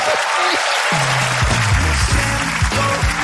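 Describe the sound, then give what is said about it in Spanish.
Audience applause at a comedy show opening, a loud, steady wash of clapping layered over low droning tones that slide in pitch. “Un fuerte aplauso.”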